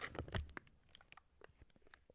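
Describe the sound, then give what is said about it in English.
Close-up ASMR drinking sounds: a series of faint, soft sips and wet mouth clicks, spaced irregularly. “Some drinking ASMR for you guys.”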